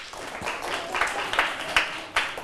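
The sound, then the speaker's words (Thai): Children in a classroom clap for a classmate, producing a few louder, roughly rhythmic claps over softer scattered clapping at a moderate level. “ถูกต้องปรบมือให้เพื่อน”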